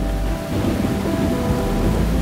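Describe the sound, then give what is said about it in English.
Heavy rain pours down in a dense, steady hiss, with a deep rumble of thunder rolling underneath. The downpour stays loud and continuous throughout, with no voices. “Sometimes, though, the intensity gets turned up, and you find yourself in the middle of a downpour.”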